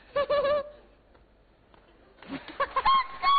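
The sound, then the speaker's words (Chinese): A person imitates a rooster crowing with a strained, nasal, high voice. The call comes in two loud bursts with a quiet pause between them. “我学个老公鸡呀、啊，清晨起来在鸡架里出来，一蹦啊蹦的。”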